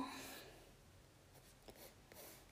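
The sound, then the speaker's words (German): Pencil scratching on paper while a character's cloak is sketched, a faint, steady rasp broken by a few sharper strokes. “Ich zeichne jetzt das im Akatsuki-Mantel-Style”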